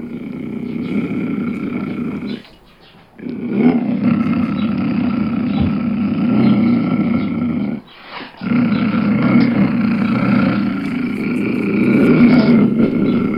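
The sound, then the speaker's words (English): A mountain lion lets out loud, rough, raspy growling roars in three long, sustained stretches separated by brief pauses, with no other sound. “If I heard that sound in a tent in the middle of the night with just a very thin piece of fabric between me and it, I would definitely wake up and consider my alternatives for self-preservation. That is a mountain lion.”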